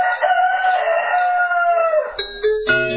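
A long rooster crow, voicing the famous rooster of the cathedral, holds steady and then dips slightly in pitch before breaking off. A few brief, bright, bell-like tones follow.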